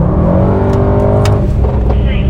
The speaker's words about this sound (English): Let's see if we can pick up this sound of race mode. Let's see if we can pick this sound up.